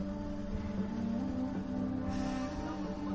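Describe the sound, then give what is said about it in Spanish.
Car driving along sandy streets, heard as a steady low engine rumble with no voices. “El coche circula por calles arenosas, se detiene en un atasco.”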